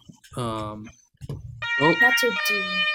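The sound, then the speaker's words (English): An electronic alarm siren sounds partway through as a steady, high, piercing tone held under ongoing talk. “the alarm is ringing. It's time to start the podcast”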